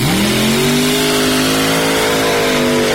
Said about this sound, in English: He's got a big block Chevrolet in it. Long wheelbase car. Both these are slingshot front engine dragsters.